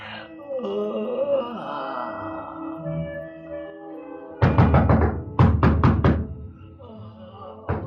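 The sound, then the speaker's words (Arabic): Knocking on a door comes in two quick bursts of heavy, hollow raps, each a rapid run of several blows. They follow a drawn-out moaning voice. “الله يهديك يا اللي قلقت نومي. مين اللي بيخبط؟”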